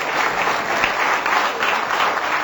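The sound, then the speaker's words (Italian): Audience applause for the author of a dictionary of Gospel terms: a dense, even patter of many hands clapping steadily and at a constant loudness throughout, with no pauses. “Paolo, ti meriti un applauso.”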